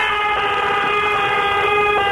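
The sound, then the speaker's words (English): Car horns blare in a traffic jam outside, a loud, steady cluster of overlapping tones that holds without a break for the whole stretch. “I tell you what, there's a hell of a traffic jam outside, Dominic. It's unbelievable. Open that door behind you. You'll get what I'm talking about.”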